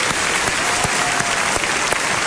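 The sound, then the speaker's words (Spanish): A church audience applauds first-time visitors, many hands clapping in a dense, steady patter, with a few sharper claps standing out from the even wash. “y vamos a darle un aplauso”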